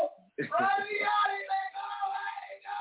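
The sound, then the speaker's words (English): A person yelling in the background of a video call: a raised, sustained voice that carries on without a break for a few seconds. “It ain't the camera. It's whoever's yelling in the back.”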